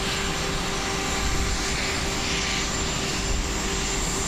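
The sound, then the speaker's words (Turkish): Jet aircraft noise from the US presidential plane departing for Dallas after a delay for an emergency-slide replacement: a steady, loud, continuous engine roar that holds level throughout with no voices. “Sorunun giderilmesinin ardından Air Force One'a binen Amerikan başkanı yaklaşık 20 dakikalık gecikmeyle Dallas'a hareket etti.”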